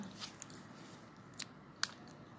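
A bite into a chocolate white fudge Timbit, a small doughnut hole with a sugary coating, makes faint, crisp crunches. A few soft clicks lead to two sharper snaps, all quiet over a low background hiss.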